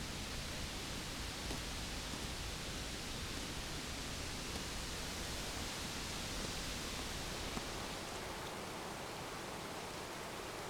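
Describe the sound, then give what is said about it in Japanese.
Clear mountain stream flowing in a ravine fed by water from Aso in Kyushu, a fairly quiet, unbroken rushing hiss that stays even throughout. “あそこから沢に降りれます。清流の音が心地よいので、あの辺りで少しお話ししませんか？”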